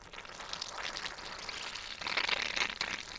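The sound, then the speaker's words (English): Fermenting kimchi is pressed down in a jar, and its liquid bubbles and squelches in a faint, continuous fizz of fine pops that grows louder toward the end. “If I push this down too much, I think the liquid's going to overflow.”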